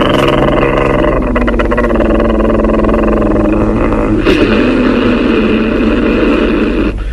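Engine drone of a soldiers' motorcycle squad setting out, a loud, steady, multi-toned hum that holds throughout, with a brief sharper burst around the middle.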